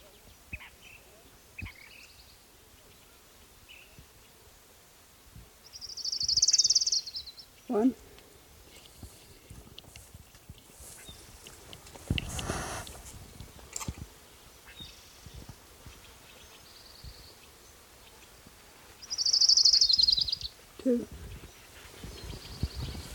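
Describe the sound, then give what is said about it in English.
Orange-crowned warbler song comes in two brief, high, bright bursts well apart, standing out faintly over a quiet background with occasional soft rustles and knocks. “And here's orange-crowned warbler number one.”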